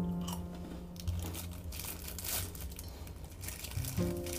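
A rice cake with soy sauce is crunched and chewed, giving many faint, crisp crackling bites in an irregular rhythm.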